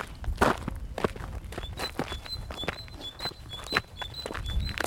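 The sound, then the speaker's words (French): Footsteps of people strolling along a paved rural road outdoors, a steady series of scuffing steps at an easy walking pace, fairly quiet, with no talking. “On se promène. On marche sur une route.”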